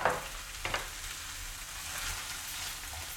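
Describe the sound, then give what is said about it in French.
Rice being stirred in a frying pan, one glass of grain for two or three people, gives a steady sizzling hiss with a few short scraping strokes near the start, with no talk. “Je vais ajouter mon riz. Voilà, pour 2-3 personnes, je mets un verre de riz. Voilà, que je mélange.”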